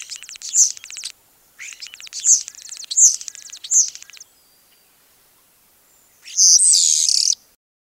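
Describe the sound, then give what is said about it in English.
A European starling calling in several bursts of high, rapid chirping and clicking chatter, followed after a pause by one longer, harsh, buzzy call, with no voices. “Birdie will fly away by the end of the show. Unfortunately, Birdie did not make it. So this podcast is dedicated to Birdie, the European starling.”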